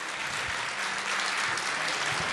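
Applause from an audience at a live event: an even wash of clapping at moderate loudness that carries on steadily from start to end, with no voices over it.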